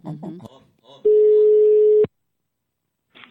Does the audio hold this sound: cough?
no

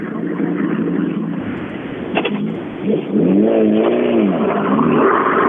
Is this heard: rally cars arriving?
yes

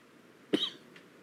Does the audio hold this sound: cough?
yes

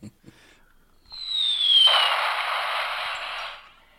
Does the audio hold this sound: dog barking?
no

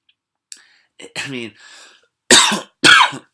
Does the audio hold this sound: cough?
yes

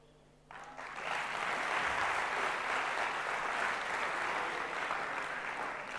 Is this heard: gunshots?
no

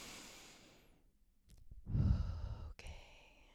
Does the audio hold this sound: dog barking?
no

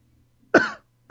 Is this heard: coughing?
yes

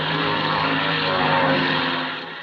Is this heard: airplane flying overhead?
yes

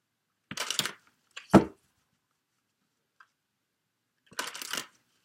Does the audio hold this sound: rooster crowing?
no

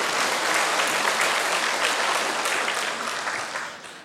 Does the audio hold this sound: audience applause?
yes

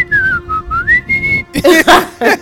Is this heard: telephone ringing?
no

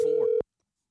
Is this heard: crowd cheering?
no

